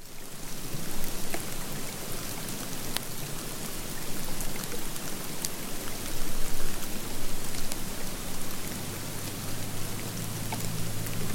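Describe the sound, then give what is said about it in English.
Heavy, wet snowflakes falling onto a low-lying bush during a May snowstorm in Jackson Hole, Wyoming, with microphones attached to its branches: a dense, steady, rain-like patter scattered with sharper clicks, continuous throughout with no voices. “heavy, wet snowflakes here during a May snowstorm in Jackson Hole, Wyoming”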